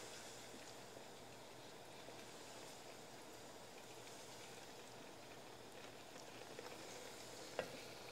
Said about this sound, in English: cook it on low to medium for just a couple minutes. Adding butter for the smooth finish.